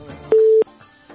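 A single steady telephone beep sounds after a caller's line is cut off during a phone-in call. It is a loud, mid-pitched tone of about a third of a second, with fainter sounds before and after it.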